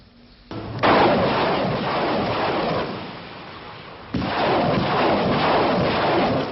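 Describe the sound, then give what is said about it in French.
Heavy weapons fire in fighting over Kigali airport, a loud rumbling roar that surges in, eases somewhat, then swells again in a second sustained burst. “C'est à l'arme lourde que l'on se dispute le contrôle de l'aéroport.”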